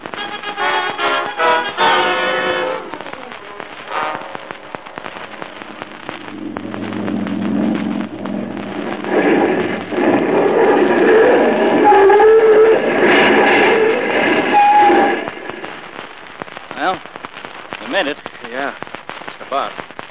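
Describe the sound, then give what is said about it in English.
Bombs exploding in a wartime air raid: a dense run of sharp cracking blasts, then a long, loud rumbling roar with crackle and faint whistling through the middle, before more scattered sharp bangs at the end. “Holy smoke, that was a bomb landing.”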